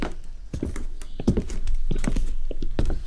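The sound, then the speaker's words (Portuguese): Footsteps of someone returning home at four in the morning, a steady series of hard, thudding steps that grows slightly louder toward the end. “Pareceu-me ouvir passos. Alguém que regressa à casa.”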